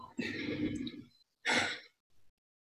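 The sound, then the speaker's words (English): A deep breath, quiet and alone: a long, voiced, sighing exhale, then a shorter breathy gust and a faint final puff of air. “Everyone just take a deep breath.”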